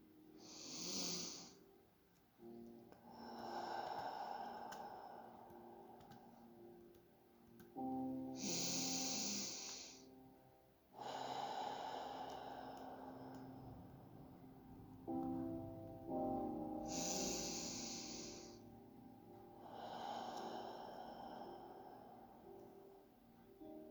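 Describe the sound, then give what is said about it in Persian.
Slow, deep breathing in and out during a guided meditation, with rough, snore-like inhales and long exhales repeating in several unhurried cycles over soft sustained background tones. “و آگاهی در درون من جاری است. دم و بازدم.”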